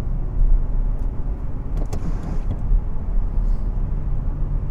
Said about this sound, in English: So just coming up to some nice corners here, woohoo, with my crappy tires, fourth gear, 87, 90 kilometers an hour, 3,000 RPM, into third